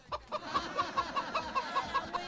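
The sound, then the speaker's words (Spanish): A rooster clucks in a rapid, evenly spaced run of many short, throaty clucks at moderate loudness, with no talking over them. “yo no soy una gallina, yo soy un gallo”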